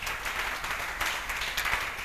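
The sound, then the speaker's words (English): An audience claps in a church service after a prayer, making a faint, dense patter of many hands with scattered sharper claps throughout. “Clap for them.”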